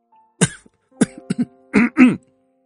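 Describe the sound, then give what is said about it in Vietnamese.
A man coughs a few times and clears his throat in short, harsh bursts. The last two bursts are heavier and longer than the earlier ones. “Gia Minh thu gọn ánh mắt lại, sắc mặt có chút thay đổi rồi ho lên mấy tiếng.”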